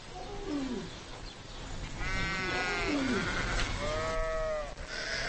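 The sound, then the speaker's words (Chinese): A ewe and her newborn lamb bleat shortly after a long, difficult birth. Lower calls with falling pitch alternate with a few higher, wavering bleats over a steady background hiss. “家畜的春天以后代的降生为开端，在几个小时的挣扎和嘶嚎后，它终于生下了小羊羔。”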